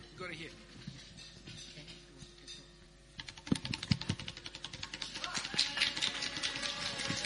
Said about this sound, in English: In this category, the award goes to, I have to open the envelope